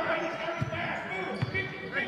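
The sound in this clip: A basketball is dribbled on the court during a game involving Riverdale, giving a few dull, low thumps under continuous play-by-play commentary.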